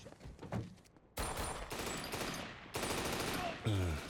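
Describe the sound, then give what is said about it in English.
M4 rifle gunfire in an action film shootout comes in several sharp, fast bursts that blur into a harsh, crackling volley, swelling in distinct louder sections and fairly faint overall. “Again, Keanu showing off his gun skills. The M4.”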